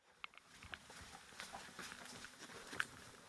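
Footsteps climb the stairs inside a home, toward the dining-room bookshelf: a few soft, faint footfalls over a low hiss.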